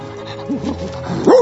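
A dog gives a few short, high yips and barks with whimpering tones, the last one loudest.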